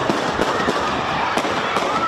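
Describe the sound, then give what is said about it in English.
Repeated gunshots at a sports event: about five sharp, loud cracks at irregular intervals over a constant, noisy background. “You can hear shot after shot after shot.”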